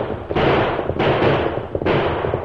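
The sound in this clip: Gunfire in a radio drama shootout: three booming shots ring out at fairly even intervals, each a loud, sharp blast that decays into a rough rumble before the next.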